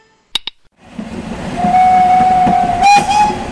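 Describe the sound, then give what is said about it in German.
A locomotive train rumbles, its noise swelling after two sharp clicks, with a sustained whistle tone over the rolling sound and a brief burst near the end. “Ist die Lok kaputt oder was?”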